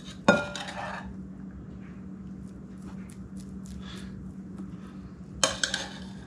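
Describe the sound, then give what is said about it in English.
Jasmine rice scooped into a bowl while cooking a Cajun shrimp and rice meal: a clink of utensil on dish at the start and another cluster of clinks near the end, with a faint steady hum in between. “we're going to scoop generous amounts of the rice into this bowl.”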